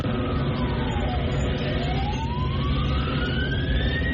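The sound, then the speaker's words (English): Siren wailing during a street disturbance in Newtownabbey, County Antrim, where water cannons held back a crowd outside a hotel; one loud tone dips, then climbs slowly and steadily over a dense, constant rumble. “That's the noise of helicopters and sirens last night in Newton Abbey in County Antrim”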